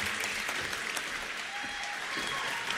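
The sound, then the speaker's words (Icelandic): Audience applause for a big band musician at a 2025 music competition, a dense, even wash of many hands clapping that holds steady at moderate volume from start to finish. “Já, gefum honum gott klapp.”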